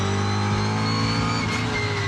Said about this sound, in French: Tout de suite, il y a quelque chose qui m'enchante les oreilles, c'est le son du moteur V8.